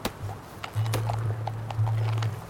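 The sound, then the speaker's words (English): A horse's hooves clip-clop at an ambling walk: a few sharp, irregular knocks over a low steady drone, with no talk. “As his horse ambled on”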